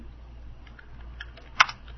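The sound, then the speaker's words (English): Keystrokes on a computer keyboard while a long website URL is typed in: faint, scattered soft clicks, then one sharper, louder keystroke near the end. “It's a very long website URL, so I'm going to give it to you as I type it in.”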